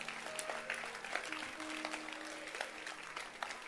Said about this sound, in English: So let's clap our hands for Sister Elom again.